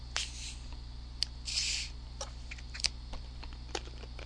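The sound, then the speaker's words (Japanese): A short, bright hiss as the cap is twisted open on a bottle of fizzy muscat-flavoured drink, amid scattered light clicks and taps over a steady low hum. “プシューと言うて開きましたわ。”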